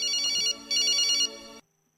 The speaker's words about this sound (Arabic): مكالمات هاتفية نستقبلوها. ألو ألو، مرحبا.